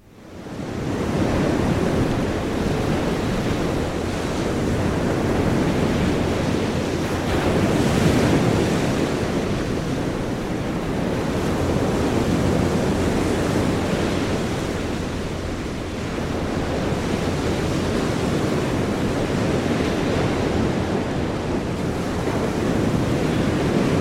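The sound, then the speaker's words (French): Waves breaking on a beach make a continuous, full-bodied rush of surf with slow swells in loudness. Wind adds a rough, noisy layer throughout. “je vous propose d'écouter Vague sur la plage avec le bruit de l'eau.”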